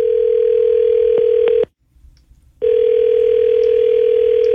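A telephone ringback tone plays on an outgoing call: a steady low-pitched tone that breaks off for about a second of silence and then resumes, with a few faint clicks before the pause.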